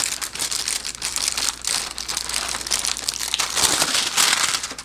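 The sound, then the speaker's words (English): A film lid is peeled off a hot Mosaic Foods ginger sesame noodle meal tray, giving continuous crinkling and crackling that grows louder toward the end, with no talk. “All right, so the ginger noodles are ready to go. This is hot. Let's peel off this top here.”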